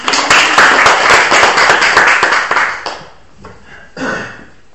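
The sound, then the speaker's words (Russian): Applause in a university lecture: brisk, loud clapping from many hands that dies away after about three seconds, leaving only a few scattered quieter sounds. “Хорошо, аплодисменты.”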